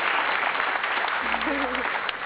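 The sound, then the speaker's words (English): Applause breaks out in a steady, dense patter of clapping that keeps a fairly even level throughout, with a brief tonal sound rising partway through. “That deserves an applause.”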